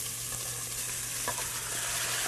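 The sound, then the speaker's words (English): Kimchi and kimchi juice fry in a pan on high heat with a steady, loud, hissing sizzle and faint stirring crackles throughout. “we're going to add in the kimchi along with the kimchi juice.”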